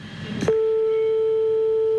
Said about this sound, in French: Ne t'inquiète pas si ça sonne longtemps.